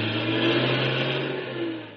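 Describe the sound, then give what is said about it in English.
A truck engine drives off with a steady, mid-pitched rumbling drone that lasts about two seconds and eases slightly toward the end. “And when you rode off in your truck”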